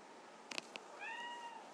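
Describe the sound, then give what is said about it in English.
A domestic cat, a female house cat, gives one drawn-out, faint meow after a few short soft taps. “She's violent. My cat is violent. She is just unplugging everything. Gwen, come here. Gwenny!”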